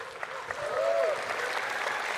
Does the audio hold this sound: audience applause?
yes